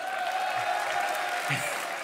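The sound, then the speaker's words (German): Audience applause: a dense, steady wash of clapping from a crowd, fairly faint and continuous throughout, with a faint sustained tone running beneath it. “Anders kann ich das hier nicht beschreiben, das ist euer Applaus.”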